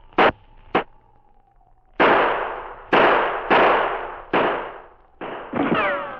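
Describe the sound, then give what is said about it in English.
A man in an alley fires his handgun. Several sharp, loud bangs come at uneven intervals, each dying away quickly, with a quick pair of bangs near the end. “As he went down, he snatched his gun from the holster. He fired.”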